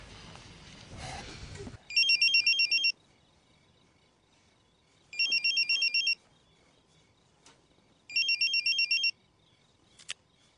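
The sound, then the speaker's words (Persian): A telephone ringing in three separate electronic trilling bursts, evenly spaced with quiet gaps between them, each ring loud and high-pitched. “گوشیش زنگ میخوره، مادرشه. گوشی خونه زنگ میخوره.”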